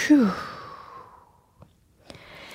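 A single voiced exhale, like a sigh, during a yoga forward fold. It starts fairly loud, falls in pitch and fades over about a second, followed by a few faint clicks.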